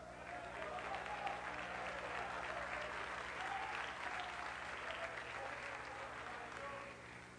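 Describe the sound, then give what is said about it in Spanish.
A church audience applauding during a service, with steady, dense clapping held evenly throughout and tapering slightly at the close. “Denle un aplauso a Cristo.”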